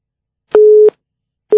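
Telephone busy tone after a call is cut off: a loud, steady, mid-pitched beep sounds alone, followed by a pause and the start of another identical beep.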